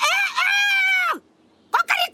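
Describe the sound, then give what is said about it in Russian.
A person imitates a rooster crowing while hypnotized into believing he is a chicken: one long, strained, sustained call that drops in pitch at its end, then a shorter burst after a brief silence. “А вот подсознание у дружка, похоже, осталось прежним. Сколько раз ему говорил, что курицы не кукарекают.”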